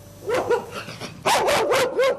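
Stray dogs roaming in packs in Bucharest bark: a few sharp barks, a brief lull, then a louder run of rapid, overlapping barking.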